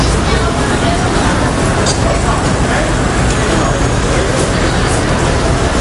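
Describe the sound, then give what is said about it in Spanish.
Morning street traffic in Manhattan, New York, at 8:30 a.m.: a continuous dense roar of vehicles mixed with a murmur of voices, holding steady and loud throughout without distinct breaks. “Este es el sonido de Nueva York a las 8:30 de la mañana del 11 de septiembre de 2001.”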